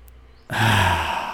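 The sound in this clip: A deep breath let out all at once during a relaxation exercise: a short quiet pause, then one sudden, breathy exhale that starts strongly and slowly fades over about a second.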